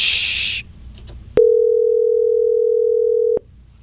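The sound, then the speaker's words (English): A telephone tone sounds while a call is being dialed: a short burst of hiss, then a loud, steady single-pitched tone held for about two seconds before it cuts off abruptly. “It's very difficult to talk and dial at the same time.”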